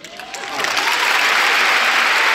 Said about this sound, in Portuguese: Calma, calma, calma, não aplaudam já. Eu sei que houve esta pausa dramática